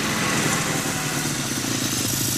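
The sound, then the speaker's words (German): A white motorcycle's engine gives a steady, loud, low rumble with a faint buzzing vibration, holding an even level throughout without clear revving. “Ich betrachtete Ed, wie er von seinem weißen Motorrad stieg.”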